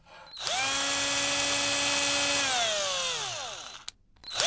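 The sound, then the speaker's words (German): A cordless drill drives screws to fix shelf brackets to a wall. It gives one steady high whine for about three seconds, then the pitch drops as the motor winds down, and a brief click follows. “Du hältst die Konsolen fest und schaust, dass wir schön gerade bleiben und ich schraube sie mit dem Akkuschrauber fest.”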